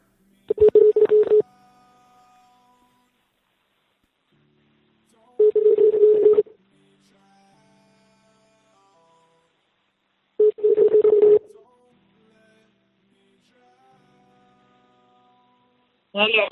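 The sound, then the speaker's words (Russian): Touch-tone keypad beeps as a phone number is dialed. Three dense bursts of DTMF tones are separated by silences, and a fourth burst begins right at the end. “Так, давай наберем на него 931, 3 семерки, 88, 22. Набираю.”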